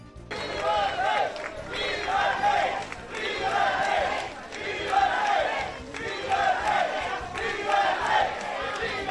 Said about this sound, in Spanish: Decenas de personas le han jaleado en el Club Náutico de la localidad